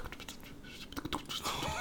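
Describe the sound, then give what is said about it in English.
A voice imitates unintelligible ASMR whispering: soft, breathy, hushed syllables with no real words, kept quiet and continuous throughout. “There's another kind of ASMR. It's intelligible whispers, where they're literally like, it sounds like this, like,”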